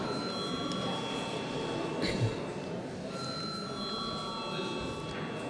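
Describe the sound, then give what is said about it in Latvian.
An electric bell rings in a parliament chamber before a vote, a steady, continuous metallic tone over a low background hum. “Lūdzu zvanu.”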